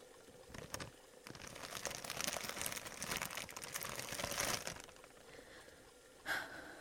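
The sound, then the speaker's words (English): Paper crinkles and crackles as a gift package is unwrapped, with many quick rustling crunches that build into a dense stretch, pause, and then return in one short burst near the end. “But if you'll unwrap this package, you may see why you had me going a while at first.”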